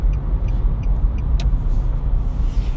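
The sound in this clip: A few faint, evenly spaced clicks tick inside a moving car over a steady low road rumble and engine hum, then stop while the drone continues.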